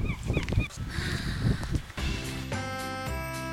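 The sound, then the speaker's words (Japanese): Seagulls call at a harbour, a few short, harsh cries in the first half amid rustling background noise, after which a steady tonal sound takes over. “カモメ帰ってきたよ。 なんか気持ちよさそう。カッカッカッ、呼ばれました。 これは何の鳴き声？ カモメの鳴き声。”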